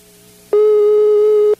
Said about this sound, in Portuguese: Olha, tá chamando.